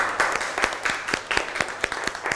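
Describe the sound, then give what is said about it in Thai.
Classroom children applaud a classmate who gave a right answer during an art lesson. Their claps land in a quick, fairly regular rhythm, many in a row, at a steady moderate loudness. “ถูกต้องเลยปรบมือให้เพื่อนหน่อย”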